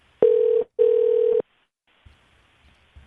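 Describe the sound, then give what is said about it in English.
A telephone ringing tone sounds on a call to the 111 number, two loud, steady, even-pitched bursts separated by a short gap, followed by near silence with a few faint clicks. “Hopefully somebody picks up. I dialed 111 again.”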